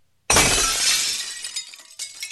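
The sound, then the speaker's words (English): After a brief silence, glass breaks in one sudden, loud shattering crash that rings and decays into tinkling fragments, followed by a smaller clink of falling shards. “So let's do this. If someone will please break the glass.”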